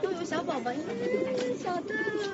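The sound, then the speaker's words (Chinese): A young pigeon coos as it is taken out to be fitted with a leg band. The coo is a continuous, low, warbling call whose pitch wavers up and down, steady in level throughout. “我正好有一只小鸽子该给它戴脚环了，我拿出来”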